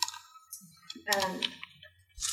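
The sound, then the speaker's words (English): Sparse, faint clicks of typing on a computer keyboard during a board meeting, with a few quiet keystrokes spaced out among soft background voice sounds. “I made a quick word version here, but maybe you can... I'll just type it in so we can see.”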